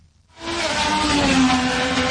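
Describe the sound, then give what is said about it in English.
Race cars roar through the streets of Washington, DC, on a course past the National Mall and the Capitol at over 300 km/h. After a brief quiet start, a loud, sustained engine roar cuts in and holds steady with a droning whine. “President Trump waved the green flag and then they were off. 25 drivers roaring through the Capitol's streets.”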